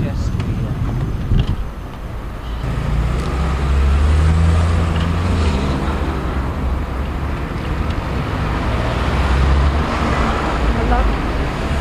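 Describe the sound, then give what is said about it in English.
Road traffic roars around the Highbury Corner roundabout, heard from a moving bicycle, a continuous dense rumble of engines mixed with buffeting wind noise that stays loud throughout, with deeper vehicle drones swelling in the middle. “So this is a roundabout.”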